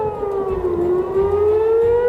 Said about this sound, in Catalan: De manera que un dia més han tornat a sonar les sirenes